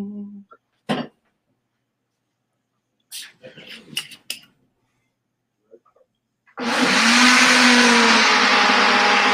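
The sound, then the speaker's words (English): A blender whirs loudly and steadily while making a fruit juice smoothie from chopped watermelon and other fruit. Brief voices and scattered noises come first, then the motor noise starts abruptly and runs without a break to the end. “Miss Pena, my mom chopped up a watermelon today and some other fruit. Miss Pena's making juice. Are you making the smoothie out of it?”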